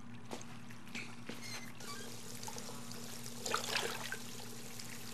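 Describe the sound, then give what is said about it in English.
Running water pours steadily from a tap as hands are washed in a video game, a faint, even trickle over a constant low hum, with a slightly louder splash near the end. “Okay, I suppose we better wash our hands.”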